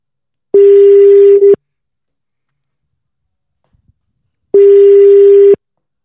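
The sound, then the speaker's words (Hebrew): Ringback tone of an outgoing telephone call as a surprise call is placed: two steady, mid-pitched electronic tones, each about a second long, separated by a long silent gap, with no voices. “יאללה, בואו נעשה שיחה בהפתעה לרותם חתואל”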